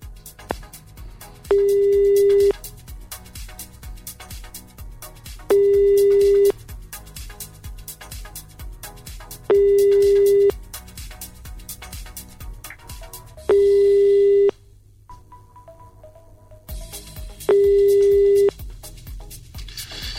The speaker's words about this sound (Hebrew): טוב, אז בואו נתקשר אליו